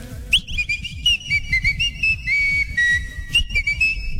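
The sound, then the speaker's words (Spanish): Someone whistles a lively, bright tune in a coffee advertisement, the high melodic notes sliding and stepping between pitches over a rhythmic, low-pitched backing beat. “A que llegues chiflando, compa.”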